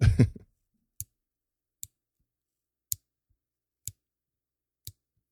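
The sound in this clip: Five crisp, sharp clicks of a quartz watch's 60-click rotating bezel being turned, spaced roughly a second apart and standing alone against near silence.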